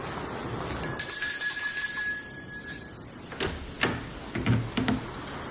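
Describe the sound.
A hand bell is rung to summon a servant, giving a bright, sustained ringing tone that slowly dies away, followed by a few soft thuds.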